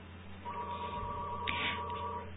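A telephone rings with an incoming call from a caller, a steady electronic ringing tone that holds throughout, with a brief brighter burst near the middle.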